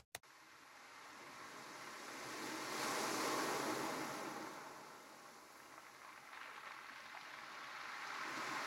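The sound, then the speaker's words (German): Sea waves washing onto a beach: a broad, steady rush of surf that swells to a peak, eases back, then builds again, with no voices. “Il suono delle onde del mare sulla spiaggia.”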